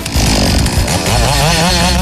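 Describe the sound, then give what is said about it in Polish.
A chainsaw at a lumberjack competition, where contestants change the chain and then cut wood in further events. The engine gives a loud, steady, rasping drone with no break for about two seconds. “Lubię przekładkę łańcucha, bo tutaj liczy się czas, dokładność i to, jak sobie zmontujemy urządzenie, tniemy tą pilarką dwie następne konkurencje.”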